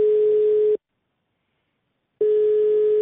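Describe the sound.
A ringback tone sounds on an outgoing phone call to a listener in Darab, Iran: a steady, low single-pitched beep in two bursts separated by a silent gap of more than a second.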